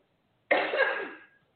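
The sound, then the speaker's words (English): A single loud cough bursts out abruptly and trails off over about a second, heard alone with no talking around it. “that is not a corona cough.”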